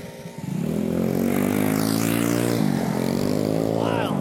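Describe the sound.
Loud, steady humming engine drone of delivery motorcycles passing by at night, swelling in within the first half second and holding strong, with a brief dip in pitch midway.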